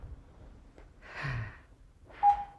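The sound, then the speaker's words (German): Slow breathing in and out through the mouthpiece of a lung function testing device: two faint, soft airy breaths, the second joined by a brief steady electronic tone, with no talking. “Dann das Gerät bitte einmal ansetzen und erstmal in Ruhe ein- und ausatmen.”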